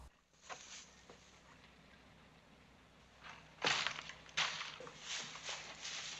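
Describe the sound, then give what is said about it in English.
Charred logs of a burnt-out fire are kicked: two sharp crunching knocks stand out against a faint, quiet background, followed by softer scraping and rustling. “Ralph goes over and angrily kicks at the charred logs of the burnt-out fire.”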